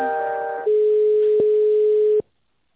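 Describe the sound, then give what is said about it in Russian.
A telephone line tone plays while a call is transferred: a buzzy, harmonic-rich tone shifts into a steady pure hum. The hum holds for about a second and a half, with two faint clicks, then cuts off into silence. “Одну минуту, соединяюсь с тендерным отделом.”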